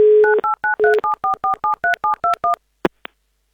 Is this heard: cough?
no